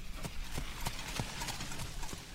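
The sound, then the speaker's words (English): Hooves of a horse pulling a cart clip-clop in a steady, even rhythm, with many sharp knocks and a low rumble underneath. “A horse-drawn cart passes us by”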